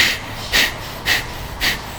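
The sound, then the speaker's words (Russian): Breathing through the right nostril with the left nostril held closed, during a kriya yoga warm-up, gives a few evenly spaced, airy breath bursts over a soft background hiss. “Левую ноздрю закрыли, правой дышим.”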